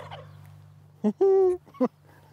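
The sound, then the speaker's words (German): Male turkeys gobbling as they are let out and puff themselves up: three loud bursts of gobbling, the middle one longest and most tonal, over a steady low hum. “Christine Bremer lässt ihre Putenhähne raus und die plustern sich ordentlich auf. Das ist schon so ein bisschen so ein Ballett, ne? Ein Ballett mit Gesang.”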